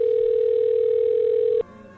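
Telephone dial tone after a call is hung up: a steady, loud, unbroken tone holding for about one and a half seconds before cutting off abruptly, leaving fainter tones behind.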